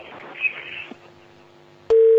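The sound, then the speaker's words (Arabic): A telephone busy tone sounds after a caller's line is cut off. The loud, steady tone cuts in abruptly after a click and faint line noise. “سبحان الله، قطع الاتصال.”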